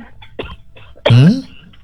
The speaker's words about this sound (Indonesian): Aduh. Aduh, batuk.